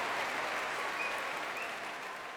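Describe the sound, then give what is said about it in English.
Concert audience applause at the Royal Albert Hall after a BBC Symphony Orchestra performance: dense, steady clapping fills the whole stretch, loud and continuous, easing slightly toward the end. “That's live, of course, from the Royal Albert Hall, but with cheers ringing out all around me.”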